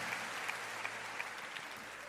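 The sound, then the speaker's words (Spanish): A church audience claps their hands in a dense, continuous burst of applause at moderate loudness. Faint rhythmic accents run through it, and no voices stand out. “Clap your hand. Aplaude a él.”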